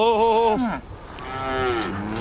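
Cattle mooing on grazing land by the Yellow River: two drawn-out, loud moos, the first falling away at its end and the second running to the close, with no talk.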